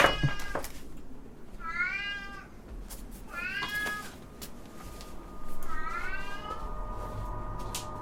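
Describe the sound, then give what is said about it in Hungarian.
A cat meows three times, drawn-out, fairly loud wavering mews spaced a second or two apart, with a steady low background noise underneath and no talking. “A cicának a nyávogása ne tévesszen meg senkit, a cica kapott enni, kapott inni, a cicának semmi baja nincsen, csak egy kicsit hisztis”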